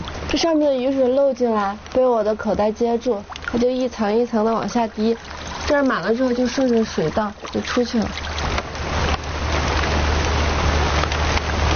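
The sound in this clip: Rain patters steadily as rainwater leaks in from above, collects in a pocket and drips down layer by layer before running out along a channel. The soft hiss continues under a person talking, then goes on alone.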